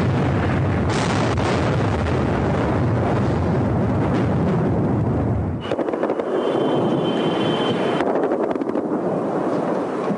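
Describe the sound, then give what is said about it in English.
Explosions from the shock and awe bombing of Baghdad form a dense, continuous roar of blasts and rumbling. The texture shifts partway through to a sharper, crackling barrage, with no voices. “The shock and awe bombing of Baghdad 4 years ago, followed quickly by the battle outside a building where Saddam Hussein and top aides were mistakenly believed to be hiding.”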